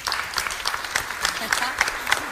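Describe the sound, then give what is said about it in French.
An audience applauds at a film presentation. The clapping is moderate and steady, and a voice is heard over it. “On peut applaudir Marisol aussi s'il vous plaît.”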